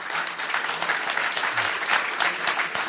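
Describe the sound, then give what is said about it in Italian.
An audience applauds guest speakers at an economics discussion event, with steady, dense clapping that continues without a break from start to end. “Se gli fate un applauso cortesemente.”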